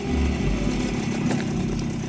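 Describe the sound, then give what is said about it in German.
A Tomos motorcycle, an original from the Yugoslav heritage brand, idles in Croatia. Its engine gives a steady, continuous low rumble with no clear revving throughout. “Wie könnte ein Roadtrip durch Kroatien schöner beginnen als auf einem Originalmotorrad der jugoslawischen Traditionsmarke Tomos?”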